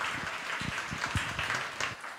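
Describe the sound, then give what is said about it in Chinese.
An audience claps together during a church service, a dense, continuous patter of many hands with some heavier thumps mixed in, holding steady before easing slightly at the end. “我们拍手把荣耀归给神。”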